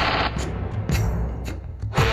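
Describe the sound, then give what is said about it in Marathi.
Machine gun and automatic rifle fire in battle, several sharp bursts of rapid shots cracking out over a constant rough noisy backdrop. “Machine gun automatic रायफल्सच्या माऱ्यासमोर फार वेळ तग धरणं शक्यच नव्हतं.”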